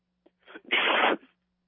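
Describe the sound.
A single sneeze from a caller on a telephone line: a faint catch of breath and a brief breathy intake, then one loud, harsh burst that fades quickly into silence, with no talk over it.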